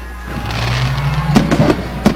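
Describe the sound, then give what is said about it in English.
Fireworks go off at a football game around the coin toss, a few sharp cracks and pops standing out over a loud, steady background roar. “Amongst the fireworks over there, Gary, how about that?”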